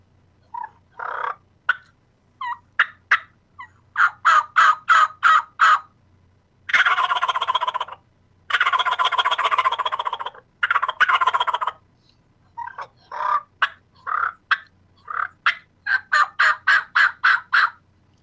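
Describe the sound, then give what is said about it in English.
Raspy turkey gobbles produced on a bat wing turkey call, sounding as many loud, rapid staccato bursts with a couple of longer rattling runs in the middle, alone without talk. “the bat wing here is gonna be a little more raspy. Do a gobble with that one.”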